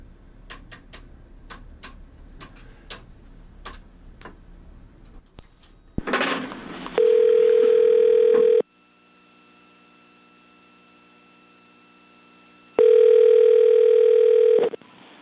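A telephone call being placed: a run of sharp, quick clicks, then a loud steady tone, a quieter hum, and the steady tone again.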